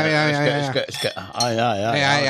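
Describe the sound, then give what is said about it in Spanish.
Wine glasses clink together in a studio as real glasses of Rioja red are raised, giving bright, ringing chimes whose tones linger and overlap. “Hay copas de verdad en el estudio, ¿eh? Y vino de verdad.”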